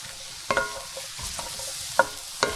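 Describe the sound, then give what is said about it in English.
Salted eggplant fries in about two tablespoons of hot oil in a pan, giving a faint steady sizzle. A few sharp utensil clatters from stirring cut through it. “Once the pan is hot, we're going to add some oil, about 2 tablespoons. Now we're going to add our eggplant to the pan and add some salt as well.”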